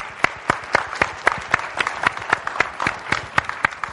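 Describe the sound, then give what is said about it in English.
Rhythmic applause from a class audience thanking a participant, with many steady, evenly spaced claps, moderately loud and sharp, carrying on throughout without a pause. “Can we say thank you and give him a hand?”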